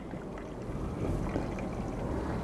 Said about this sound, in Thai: ตอนนี้คุณวิจะเทน้ำไปแล้วนะครับให้ได้450 มล.นะครับ